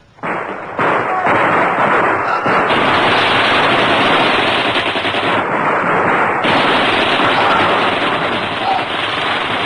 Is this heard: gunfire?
yes